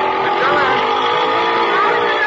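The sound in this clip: A motor scooter engine drones loudly and steadily throughout, a dense buzzing whine whose pitch wavers slightly as the small machine is ridden hard.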